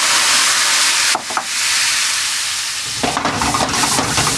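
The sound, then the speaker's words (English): Boxed Riesling wine hitting a hot pan of butter and browned flour: a loud, continuous hiss and sizzle that briefly dips, then resumes with crackling, bubbling spatter. “So now I have just a little bit of butter and a little bit of brown flour in the bottom of my pan, which is perfect. And now I'm going to take some wine.”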